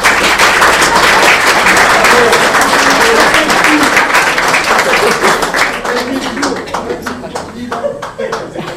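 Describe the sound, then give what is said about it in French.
Audience applause at an art exhibition opening, dense rapid clapping that gradually thins into scattered individual claps toward the end, with voices mixed in. “On peut même l'applaudir.”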